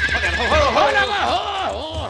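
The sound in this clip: A horse gives a loud, wavering whinny lasting about two seconds. Its pitch bobs up and down repeatedly over a low, steady rumble.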